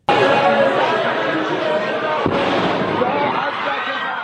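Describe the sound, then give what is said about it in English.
Bomb blast on a crowded street near a grave site in Iran: dense, loud crowd noise runs throughout, broken midway by a single sharp burst. “Here's the moment one of the blasts hit a very crowded street.”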